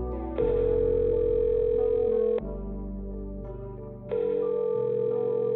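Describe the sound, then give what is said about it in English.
Electronic telephone tones signal an arriving voicemail from a custom framing shop: two long, steady high beeps separated by a quieter gap, with lower stepped tones sounding beneath them. “a voicemail arrives from a well-known custom framing shop around the corner from Ron's house”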